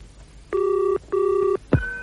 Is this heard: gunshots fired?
no

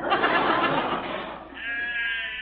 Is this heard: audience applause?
no

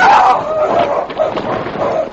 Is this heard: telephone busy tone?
no

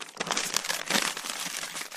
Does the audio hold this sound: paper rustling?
yes

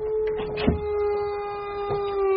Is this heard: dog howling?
yes

